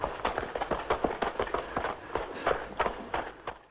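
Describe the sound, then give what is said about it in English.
Footsteps of two people jogging at a steady pace through a tunnel: many quick, even footfalls tapping in a regular rhythm at a moderate level, with no voices. “They head into the tunnel. Joe and Rave jog at a steady pace.”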